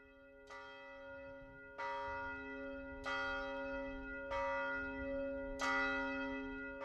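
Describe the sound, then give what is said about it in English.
Church bells ring out at noon in a neighborhood of A Coruña, northwest Spain: five loud bell strikes roughly every 1.3 seconds, each with long, shimmering overtones that sustain and overlap into the next. “As the noontime church bells ring out,”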